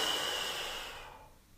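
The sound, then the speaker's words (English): A single long, airy breath, steady at first and then fading out toward the end, with no talking over it. “Again, deep breath in. Then out.”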